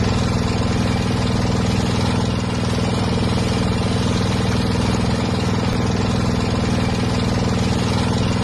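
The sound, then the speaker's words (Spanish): Motor of a boat in Laos, running as a loud, steady, low droning hum that holds an even pitch throughout without pauses or talk. “El sonido es el motor de una barca”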